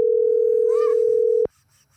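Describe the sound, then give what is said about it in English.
Telephone dial tone on an outgoing call: one steady, unbroken mid-pitched hum that holds evenly for about a second and a half, then cuts off abruptly, leaving only faint background noise. “Oh, you're actually calling him? I don't even know if this is gonna work.”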